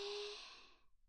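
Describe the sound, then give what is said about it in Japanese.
A slow exhale through the mouth during a guided breathing exercise, a soft, breathy whoosh that starts fairly strong and fades away over about a second. “鼻から吸って、口からふーって吐いて”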